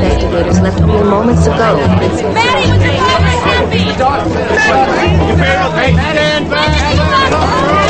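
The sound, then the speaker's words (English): A throng of reporters chatters outside a driveway blocked by police barricades: a dense, steady babble of many overlapping voices, loud and unbroken from start to finish. “She approaches her driveway where police barricades block the entrance from a throng of reporters.”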